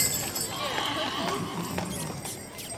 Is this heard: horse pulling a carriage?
yes